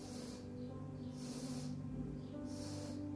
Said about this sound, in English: Breathe in.